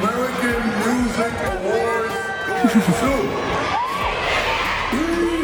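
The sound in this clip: Fans shriek and cheer loudly at the American Music Awards as the Artist of the Year award is announced. The high-pitched, shouting crowd noise is dense and unbroken and drowns out everything else, with a few sharper whoops rising above it.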